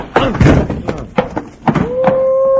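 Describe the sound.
Heavy thumps of a man smacking a crook and knocking him out during a fight, several dull punchy impacts in irregular succession mixed with vocal sounds, then a steady sustained tone holding to the end.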